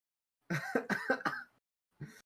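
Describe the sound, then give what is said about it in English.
A person's sneeze: a burst of several quick, explosive, breathy vocal pulses. After a short pause, one more brief burst follows. “Sneezed.”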